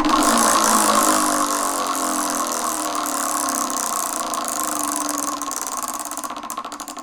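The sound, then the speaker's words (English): A game wheel spins with a steady whirring rattle that breaks into separate clicks near the end. No voices are heard. “Well, it's time to give the wheel a spin.”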